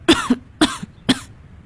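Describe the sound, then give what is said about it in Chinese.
Three sharp, raspy coughs come from someone with a lingering cold who has just breathed in coal gas. They are evenly spaced and loud, and the first two are each followed by a smaller catch of breath. “你怎么老在咳嗽啊？”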